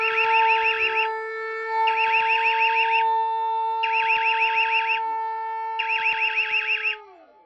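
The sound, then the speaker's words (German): A meltdown alarm sound effect: a steady electronic drone with four pulsed, warbling bursts at regular intervals. The sustained tones then slide down in pitch and fade at the end. “Heute mal wieder mit dem altbekannten Meltdown-Alarm, den wir schon echt lange nicht mehr gehört haben.”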